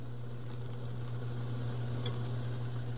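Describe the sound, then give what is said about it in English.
Julienne carrots sizzle in a hot pan with a steady, continuous crackling hiss, fairly faint, over a low constant hum. “Now we've got a nice even layer on our pan. Let's go ahead and grab our carrots. Let's go ahead and add those in.”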